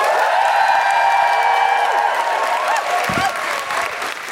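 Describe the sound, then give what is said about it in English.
Audience applause with cheering and whoops as a stand-up comedy act is introduced, a loud, steady wash of clapping with high whooping voices on top, easing slightly toward the end. “Please put your hands together and make general woohooing noises for Jen Brister!”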